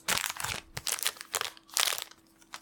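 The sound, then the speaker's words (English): Foil wrappers of trading card packs crinkle as they are torn open, a series of sharp, papery crackling bursts separated by short pauses, moderately loud with no voices. “Lots of audio texture. We could make an ASMR episode of just us opening packs.”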